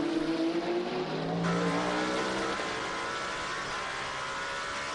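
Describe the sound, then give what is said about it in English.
Race cars roar on a circuit as an Alpine runs right behind a Peugeot while they fight for 13th and 14th place. The loud engine noise is continuous, with a high, buzzing engine note that shifts during the first seconds. “Alpine looking at the back of a Peugeot. That is for 13th and 14th.”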